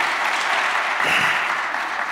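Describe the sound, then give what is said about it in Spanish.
Applause from a Spanish-speaking church audience for one of its sisters, a steady, dense patter of many hands clapping at even loudness throughout. “¿Por qué no le damos otro aplauso a la hermana?”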